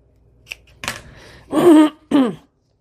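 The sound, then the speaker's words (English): Scissors trim a small paper booklet: a faint click and a short snip, then two louder, longer crunching cuts through the paper, with no talking. “I'm just going to trim this little thing off.”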